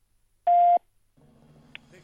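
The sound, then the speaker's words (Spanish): A voicemail tone sounds before a message is left: one steady, mid-pitched electronic beep lasting about a third of a second, followed by faint talk. “Por favor, deje un mensaje. Después del tono, después del tono.”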